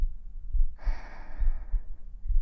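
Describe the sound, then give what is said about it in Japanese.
Heartbeat heard with an ear pressed against a racing chest, a series of dull, low thumps repeating throughout, with a soft breathy exhale rising over them partway through. “聞こえる？心臓の音。すごくドキドキしてるでしょ？”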